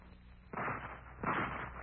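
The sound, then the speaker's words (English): A gunfire sound effect in a radio drama: two muffled, noisy bursts, the first about half a second in and a louder one just after a second, each trailing into a rough, sustained rumble that stays fairly quiet. “As the day progressed, however, the firing grew heavier.”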